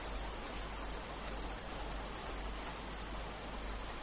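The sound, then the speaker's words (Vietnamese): Heavy rain pours down on a street as a dense, even hiss. The downpour stays fairly quiet and unbroken from start to finish. “Mưa rơi tầm tã, người đi trên đường đều chạy hết.”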